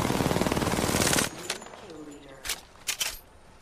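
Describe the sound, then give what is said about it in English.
Gunfire in the video game Apex Legends: a dense burst of rapid automatic fire for about a second, then a few scattered sharp single shots with quieter gaps between them. “They spotted me. I'm taking shots.”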